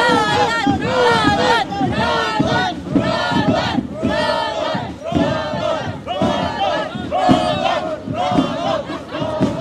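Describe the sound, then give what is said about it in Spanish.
A delegation crowd from the municipality of Puerto Rondón shouting rallying chants: many voices yell together in loud, rhythmic, repeated bursts, dense and continuous throughout. “Ahí están las arengas de la delegación del municipio de Puerto Rondón.”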